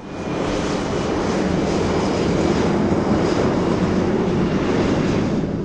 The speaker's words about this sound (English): That's the sound of a plane flying over South Portland